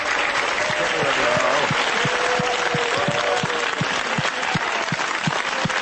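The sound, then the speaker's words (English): A studio audience applauds on a call-in advice show: thick, steady clapping fills the whole stretch, with individual sharp claps standing out and voices audible within it. “It's a bit self-centered, isn't it? You clap a little harder for yourself than for the show host.”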